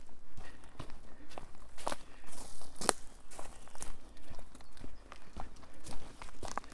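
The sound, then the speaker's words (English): Footsteps crunch across the top of Woodbury Castle, an Iron Age hill fort dating to 300–500 BC, as many crisp, gritty steps fall in a steady walking rhythm with no talk over them. “Walking across the top of Woodbury Castle.”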